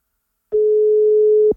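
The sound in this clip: A telephone ringback tone on an outgoing call: a single steady, mid-pitched tone lasting about one second, heard alone without any voices.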